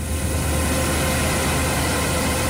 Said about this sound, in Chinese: 走进山西大同市云冈区西韩岭乡泰善村，收割机正开足马力作业，转运车辆紧随其后，将刚收获的玉米及时运往收储点。